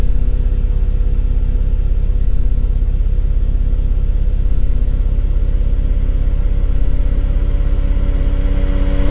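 A car engine in a racing video game hums as a steady, loud, low drone with gentle, slowly recurring swells and no voices.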